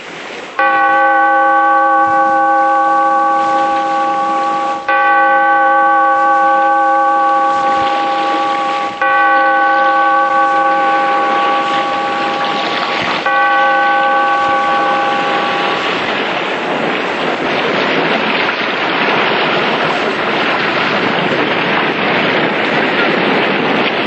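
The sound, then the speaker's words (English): A bell tolls four times in slow, even strokes by the sea, each rich ringing tone hanging and fading before the next, over a steady rush of wind and surf-like noise that carries on alone after the last stroke. “Bellkeeper, toll the bell so that all may know we are gathered again in the Weird Circle.”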